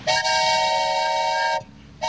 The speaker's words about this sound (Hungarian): Ez olyan, mintha egy vonat érkezne. Vagyis vasparipa.